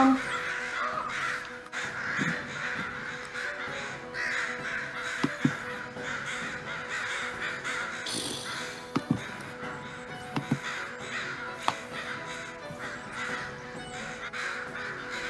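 Crows caw again and again over a steady, noisy outdoor background, with a few sharp clicks scattered among the calls.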